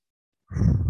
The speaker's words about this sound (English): take a deep breath. 3 seconds in,